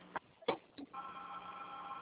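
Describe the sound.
A phone line plays a call-waiting signal: three short, faint blips followed by a steady, sustained tone, heard alone with no talk over it.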